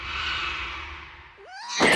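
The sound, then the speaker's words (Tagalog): A black cat meows in a drawn-out tonal call that ends in a short upward inflection, followed by a sudden, loud burst of noise. “Ang pusang itim. Wala lang yun.”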